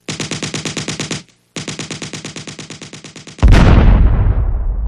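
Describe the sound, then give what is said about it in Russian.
An explosion bursts out after shooting at tin-can targets. Two long bursts of rapid, rattling gunfire, split by a brief pause, are followed by a sudden loud blast that rumbles and slowly fades. “Невольно дернувшись от неожиданного взрыва, и не он один, кстати, Чагин”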